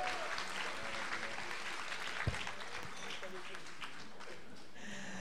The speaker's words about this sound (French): Merci, on peut l'applaudir encore une fois, s'il vous plaît.